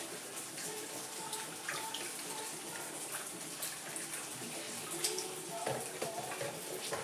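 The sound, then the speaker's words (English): Tap water runs steadily while sauce sachets are washed under it, a continuous loud hiss and splash with small irregular clatters throughout. “I'm going to wash them.”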